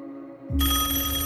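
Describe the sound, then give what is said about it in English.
A telephone on a table starts ringing with a loud, bright, continuous bell-like trill that cuts in sharply after a quieter tonal hum and holds steady to the end. “On the table next to him, a phone rang.”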